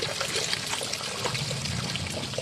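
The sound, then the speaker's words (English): Water from a garden hose pours into buckets on a lawn beside fire-damaged houses: a steady, fairly soft rush of splashing that runs unbroken from start to finish. “She's filling buckets with a watering hose.”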